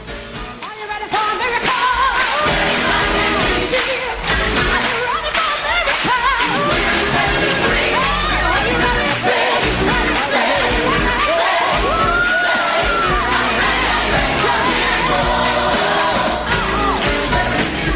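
A crowd cheering sound effect, set off by pressing a button, with yells and whoops in a loud, dense, unbroken roar that holds steady for about eighteen seconds.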